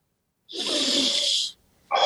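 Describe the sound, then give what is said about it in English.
A person draws one loud, airy breath lasting about a second, a rough hissing rush of air, then a short pause of silence before another sound begins. “let me take a breath.”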